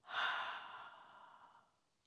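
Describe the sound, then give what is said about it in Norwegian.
A single long breath out through the mouth during a guided breathing exercise: an airy whoosh that swells quickly, then tapers off softly over about two seconds. “Og så puster vi godt inn gjennom nesa igjen og ut gjennom munnen.”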